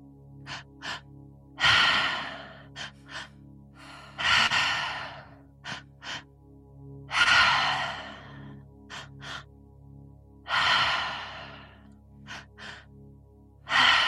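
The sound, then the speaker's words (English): Deep, rushing breaths in a three-part breathing exercise: several long, loud inhales and exhales in a slow, steady rhythm, separated by short pauses and softer breath sounds, over a faint steady tone. “Now we're going to start the three-part breath.”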